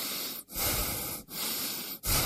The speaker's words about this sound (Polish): Proszę oddychać.